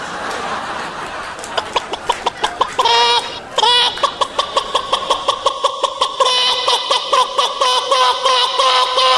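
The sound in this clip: Chickens cluck in a coop, a loud, steady run of many short, pitched calls repeating rapidly, with a harsher squawk breaking in early on.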